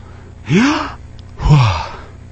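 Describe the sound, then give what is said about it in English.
A human voice imitates a dying person's last breath: a breathy, unvoiced intake followed by a separate exhale, two distinct airy swells of similar loudness with a short pause between them. “It's just unvoiced, but it sounds like this. Intake of breath, followed by exhale.”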